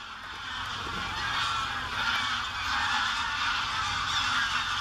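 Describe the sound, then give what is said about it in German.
Greylag geese honking in a steady, continuous chorus of overlapping calls that stays fairly loud throughout, with no voices. “So klingen Graugänse. Und bei dem Geräusch hat man irgendwie auch vor Augen, wie sie fliegen.”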